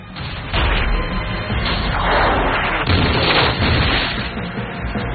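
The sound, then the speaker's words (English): A salvo of French cannon fires at a fort's defenses as one continuous, loud, deep booming rumble of overlapping blasts that swells and ebbs without separate shots standing out. “French cannon respond, firing a salvo at the fort's defenses, killing several soldiers on the battlements.”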